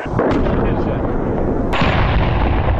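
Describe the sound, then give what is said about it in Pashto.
Heavy artillery cannon fire from a gun at a police training centre on the edge of Lashkar Gah, Afghanistan: a loud, continuous deep rumble cut by one sharp, sudden boom partway through. “په ولسوالیو کې اوس چې د لشکرګاه د ښار له یوې څنډې څخه د غټو مرمیو ږغونه اورېدل کېږي”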